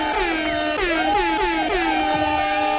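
An air horn sound effect blares in celebration of a national ice hockey world championship win. Loud, brassy honks repeat many times in quick succession, each dipping then swelling in pitch.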